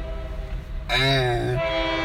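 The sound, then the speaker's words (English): Horn of a passing train sounds in a single sustained, chord-like blast lasting under a second, rising out of a steady rumbling rail noise that continues after the horn stops. “Sorry about the train, y'all.”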